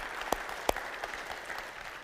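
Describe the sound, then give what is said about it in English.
Church audience applauding to welcome guests at the Loretto campus, steady dense clapping with two sharp, louder claps standing out early, the applause easing slightly toward the end. “So please join me in greeting them and welcoming them. Yes, we can applaud that.”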